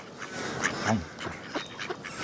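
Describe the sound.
Ducks quacking in short, nasal calls. A few scattered bursts rise over a busy, noisy background.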